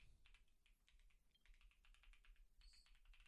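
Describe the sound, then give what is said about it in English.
Rapid typing on a computer keyboard as a web link is entered, many quick keystrokes in an uneven run over a low steady hum, with no talk. “The link is, if I can find it, I'll just type it again. That'll be easier for me to remember.”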